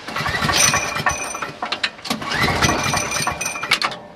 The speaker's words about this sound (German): hat gerade das Tanklöschfahrzeug vor die Garage gestellt und nimmt jetzt auf der Seite den Lüfter raus.